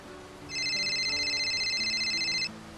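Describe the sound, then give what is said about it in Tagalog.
An incoming call sets a phone ringing: a bright, high electronic tone trills in rapid even pulses for about two seconds, then cuts off, heard alone over a faint low background. “Naku, eto. Tumatawag na nga si Ate Camille.”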